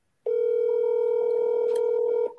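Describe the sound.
A phone call rings out toward voicemail: one sustained, steady electronic ring tone lasting about two seconds, loud and alone, then cutting off.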